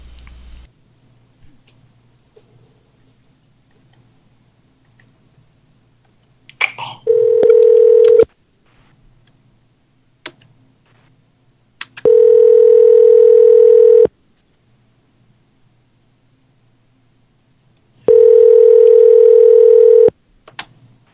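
Telephone tones on an outgoing call: three long, steady electronic tones, each lasting about two seconds, separated by silent gaps and preceded by a few brief faint clicks.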